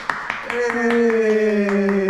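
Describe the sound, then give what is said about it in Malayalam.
People clapping hands together to inaugurate the show, a run of sharp rhythmic claps with a sustained vocal tone rising over them after the first few beats. “അപ്പൊ നമുക്ക് ഒന്ന് കൈയടിച്ച് ഉദ്ഘാടിക്കാം.”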